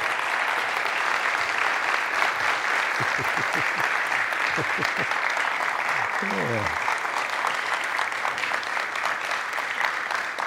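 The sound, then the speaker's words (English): A church audience applauds a woman honored for many years of ministry to the ladies, with dense, steady clapping that holds at an even loudness for the whole stretch and a voice faintly heard underneath. “Certainly on behalf of me and our elders and, well, everybody that just clapped”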